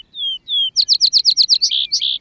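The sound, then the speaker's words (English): Vesper sparrow singing in spring Palouse grassland, two long clear whistled notes, then a quick run of bright chirped notes ending in buzzier trilled phrases, loud and alone. “Swainson's hawks cruise over the hillsides, while vesper sparrows sing from the scattered shrubs.”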